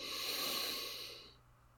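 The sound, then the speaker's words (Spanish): A slow, deep inhale during a guided breathing exercise, a soft, airy hiss that holds steady and then fades out toward the end. “Y exhalamos por la boca. Inhalando profundamente.”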